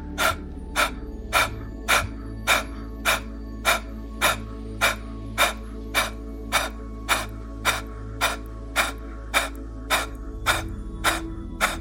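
Kapalabhati yoga breathing: many rapid, forceful exhalations pushed out through the nose in a steady, even rhythm of about two per second, each a sharp breathy puff over a low continuous hum.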